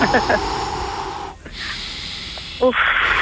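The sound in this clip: A deep inhaled breath during a guided breathing exercise, heard as a long, airy hiss. Brief voiced sounds come at the start and again near the end.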